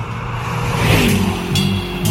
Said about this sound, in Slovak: to je inak ten náš kamoš, ktorý každé ráno prefrčí okolo rádia na aute a my hádame, že čo počúval. Inak znie to asi takto.